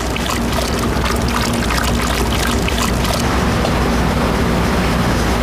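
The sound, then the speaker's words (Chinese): Hot water at 80 degrees Celsius is poured to dissolve glucose and gelatin for durian ice cream. It makes a steady, loud rushing splash that runs continuously and changes texture about halfway through. “窍门再加入热水，将葡萄糖和鱼胶融化于80摄氏度的水中”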